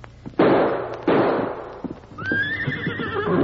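Two loud, sharp gunshots from a bird hunt over a red setter on point on a trail. They come about half a second apart and each has a short decaying tail. A horse's high whinny follows.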